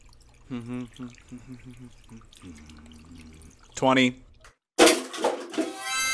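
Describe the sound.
Water running into a lavatory sink as hands are washed, a splashy gush of tap water that bursts in loudly after a stretch of speech and keeps flowing.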